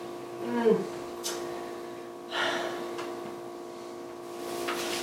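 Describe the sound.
A few short, breathy sniffs taken at a s'mores-flavoured snack, fairly faint and spaced apart.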